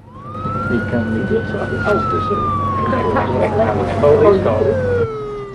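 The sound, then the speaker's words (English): Police car siren passing a coach on a freeway, a single loud wailing tone that climbs, holds, then slowly falls in pitch over a steady low rumble. “The cop car overtakes the coach with lights flashing.”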